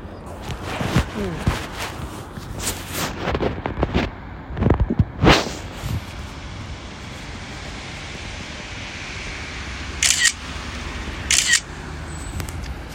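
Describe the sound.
Sharp camera shutter clicks while photographing snow-covered Mount Fuji, a few brief dry bursts standing out over a steady outdoor hiss, with a voice talking in between.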